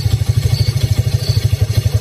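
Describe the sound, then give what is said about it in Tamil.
A motorbike carrying a large tied-up sack pulls over to the roadside. Its engine gives a loud, steady, rhythmic low chugging throughout, with no clear change in speed. “வண்டி ஓரமா எடுத்துறோம், வண்டி ஓரமா எடுத்துறான்.”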